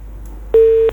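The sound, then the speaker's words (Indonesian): A single steady electronic tone sounds as a telephone call is cut off and the line disconnects, a loud, flat beep lasting about a third of a second after a quiet start, with no voices. “Terputus ya, boleh diulang kembali yang ingin gabung ya.”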